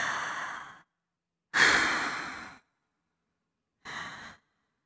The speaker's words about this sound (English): Take a few deep breaths in with me. Ready?